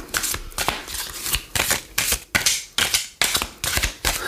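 A deck of cards is shuffled energetically by hand: a run of brisk, papery riffling bursts, each rising sharply and then fading, repeated in a quick, uneven rhythm.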